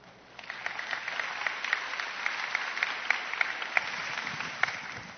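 Applause welcomes a young woman coming forward to share her testimony. It is a steady, moderate wash of clapping with many distinct individual claps, starting just after a quiet moment and continuing evenly.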